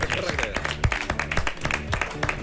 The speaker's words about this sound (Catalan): un aplaudiment per a ell